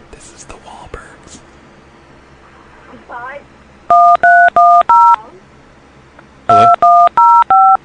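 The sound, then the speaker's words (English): Telephone touch tones being dialed: two bursts of four short, loud dual-tone beeps each, with a pause between the bursts, preceded by soft whispering. “What was that noise? I heard touch tones.”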